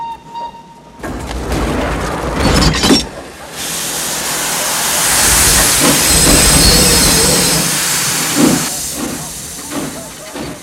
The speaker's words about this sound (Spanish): Cierran las compuertas de los vagones y el tren parte.